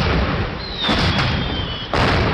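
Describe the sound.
Bottle rocket fireworks at a Fourth of July celebration: a thin, high whistle glides slowly downward in pitch over a constant noisy crackle and ends abruptly in a sharp burst.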